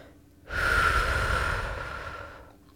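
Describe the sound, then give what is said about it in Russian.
A full, audible exhale through the mouth at the start of a 4-7-8 breathing exercise: one long, steady, breathy rush of air lasting about two seconds that slowly fades. “Вначале полностью выдохните через рот и не бойтесь при этом сделать выдох со звуком.”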